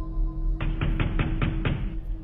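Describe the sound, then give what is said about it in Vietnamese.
Pounding knocks on a house door at night: six quick, heavy thuds in a steady, even rhythm over constant low background noise, with no voices. “nó nhận ra có ai đang đập cửa nhà nó thình thình”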